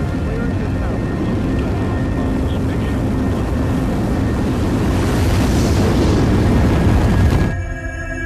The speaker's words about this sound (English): 3, 2, 1, and liftoff of the 25th Space Shuttle mission.